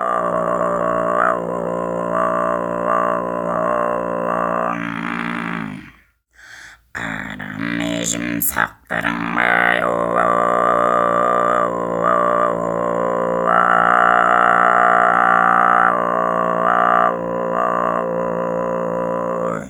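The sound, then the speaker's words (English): Kargyraa throat singing, a very low growling voice with an undertone an octave below the fundamental, sustained as a dense, buzzing drone rich in overtones, broken by a short gap midway before the drone resumes. “In Kargara, this undertone is an octave below the fundamental frequency. So, bottom line, what I'm saying is, Kargara is really, really low pitched. Let's hear it again.”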